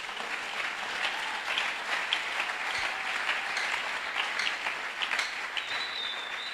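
Steady applause from an audience during a church sermon, dense continuous clapping at an even, moderate level throughout, with no talk over it.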